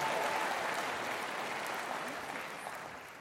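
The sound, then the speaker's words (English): Applause from a church audience: steady, even clapping from many hands, fairly faint and alone, fading slightly toward the end. “give them a round of applause. Come on, Northfield, it's a little louder than that.”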